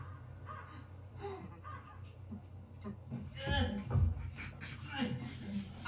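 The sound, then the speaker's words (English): Crows cawing several times, harsh rough calls coming through quietly, mixed with people talking. “Cause you know the crows and the vultures are gonna come.”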